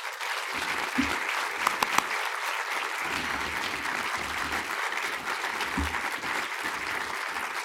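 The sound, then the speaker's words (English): Audience applause greets composer Max Richter at a live event at the BFI, a dense and steady wash of clapping from many hands that holds at an even level throughout. “So please put your hands together and welcome Mr. Max Richter.”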